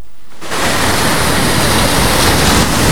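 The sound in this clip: Sea waves at a beach: a loud, steady wash of hissing surf noise that swells in suddenly after a brief quiet start and then holds constant, with no voices.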